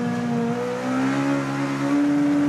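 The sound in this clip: Rally car engine revving hard while driving, heard from inside the car: a loud, continuous drone with strong harmonic tones that holds steady throughout with only slight wavering in pitch.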